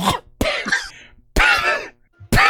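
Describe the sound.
A voice imitates a creature coughing up soot in a tabletop role-playing game: a few loud, raspy, throaty coughs in separate bursts, with short silent pauses between them.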